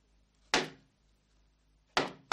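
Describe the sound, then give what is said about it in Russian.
A priest's door slams shut after a thrown boot hits it and is tossed back out. Two sharp, loud bangs ring out, each fading quickly, with another starting right at the end over near silence. “Ботинок Бендера летит в дверь попа. Поп выбрасывает его и закрывает дверь.”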